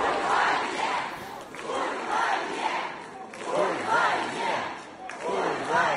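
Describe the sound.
A large crowd chants a Russian anti-war slogan in unison, the voices rising in loud, rhythmic waves that repeat at a steady pace with a continuous roar of voices between them.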